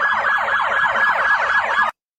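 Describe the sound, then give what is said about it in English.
A police siren sounds at a street protest with a loud, rapid yelp of quickly repeating rising and falling sweeps that run steadily for about two seconds before cutting off abruptly. “You'll also see a large police presence here, and there were sirens going off.”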